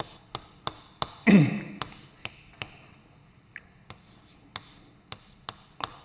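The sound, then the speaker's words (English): Someone writes on a board during a mathematical physics lecture. Many short, crisp taps fall at a fairly regular pace, with one longer scraping stroke early on. No voices are heard. “But let me just write it down, give you a rough sense.”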